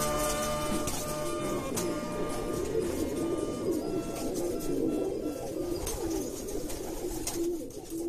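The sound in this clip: Domestic pigeons of a pigeon keeper's flock coo steadily and continuously, a dense, soft warbling murmur of many birds with no breaks and no voices.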